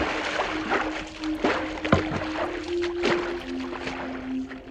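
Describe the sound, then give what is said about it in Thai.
A boat moves across water, with continuous sloshing and rushing water over a steady low hum, broken by intermittent sharper splashes. “เรือวนอยู่อีกครู่หนึ่ง ก็ถึงบ้านนายยอดได้อย่างปาฏิหาริย์พอเรือเทียบบันไดนายยอดและครูแก้ว”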